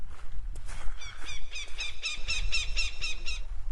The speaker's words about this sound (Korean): 다급한 물새 울음소리가 나는가 싶더니